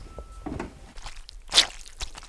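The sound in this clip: Squelchy wet foley from a chamois cloth soaked with water, giving a few short, soft squishing impacts with one louder, sharper slap near the middle.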